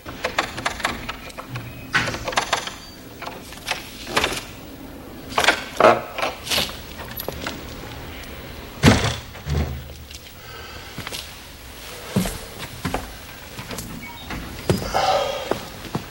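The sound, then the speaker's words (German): A skeleton key picks a door lock, then the door opens. Many faint metallic clicks and ratcheting scrapes come in irregular bursts, with a few heavier knocks and a louder thump partway through. “Er nahm seinen Dietrich und in ein paar Sekunden hatte er die Tür geöffnet.”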